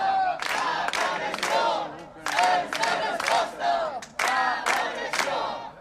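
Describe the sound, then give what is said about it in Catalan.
More than fifty people chant at a rally in front of Santa Maria town hall, held in response to homophobic and racist attacks. Loud chanted bursts come in a repeated rhythm with brief pauses between them. “El que sentiu és la concentració que va reunir ahir més de mig centenar de persones davant l'Ajuntament de Santa Maria.”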